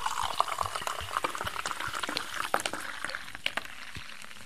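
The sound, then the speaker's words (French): A freshly poured drink foams and fizzes, giving off a dense, continuous crackle of tiny popping bubbles. Many small, sharp ticks sit over a soft, hissing wash. “Ah oui, il mousse bien. Ça mousse bien, mais les boules, ils disparaissent assez vite.”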